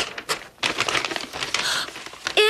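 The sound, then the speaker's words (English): A paper envelope is torn open with crinkling, rustling rips in uneven bursts, and a voice briefly sounds at the very end. “open this envelope. What's in it?”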